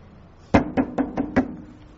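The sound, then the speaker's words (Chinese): Five sharp knocks rap on a dormitory door late at night, coming in a quick, fairly even sequence with the first knock loudest, over a faint background hum. “然后就到成大的宿舍敲门”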